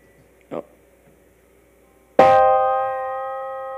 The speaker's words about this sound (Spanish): Mira, a ver, toca un acorde menor, pero muy agudo.